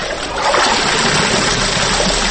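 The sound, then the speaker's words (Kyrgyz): Hand-washing of laundry in water by an elderly woman, with a water source close by: continuous splashing and trickling water, steady and fairly loud throughout, with no voices. “Жетимишке таяп калганы менен ал чапчан кыймылдап кирлерин жууп жатат.”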